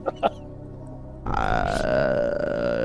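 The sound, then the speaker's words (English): A long, loud, voiced burp that drags on with a slightly falling pitch, preceded by two brief short sounds. “Did you just fart out of your mouth?”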